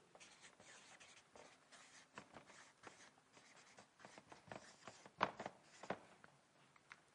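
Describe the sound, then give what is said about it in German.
Pen strokes scratching very faintly on paper as a short note is written down, soft irregular bursts with brief pauses, alone. “Ich schreibe mal auf, nur wenn Sieg möglich.”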